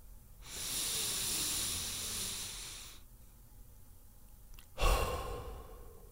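Deep breathing: one long, drawn-out breath lasting a few seconds, then a pause, then a shorter, forceful breath that sounds like a sigh.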